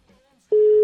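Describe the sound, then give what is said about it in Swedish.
Telephone ringing tone while calling someone: a near-silent moment gives way abruptly to a single loud, steady mid-pitched tone that holds unbroken to the end. “Skal vi prøve å ringe han og se hvordan det går?”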